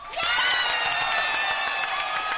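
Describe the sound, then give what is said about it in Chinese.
A short burst of applause and cheering welcomes a female radio host, the crowd clapping densely for a couple of seconds. “让我们掌声欢迎广播女神”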